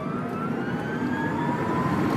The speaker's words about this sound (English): It goes like this. The car is the all-electric Tesla S, the first winning car never to have tasted the tang of gasoline.